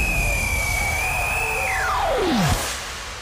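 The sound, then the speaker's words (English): Jet airplane taking off: a broad, loud engine roar runs throughout while a high whine slides steadily downward in pitch, cuts off sharply, and leaves a softer rumble behind. “For your safety, please keep your seatbelts fastened at all times. Flight 004 is cleared for takeoff.”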